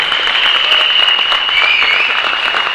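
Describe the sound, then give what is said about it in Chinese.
Audience applause for a man during a motivational speech event, dense and loud throughout, with a thin steady high tone running above the clapping. “给我们的安哥一个掌声，我们大哥”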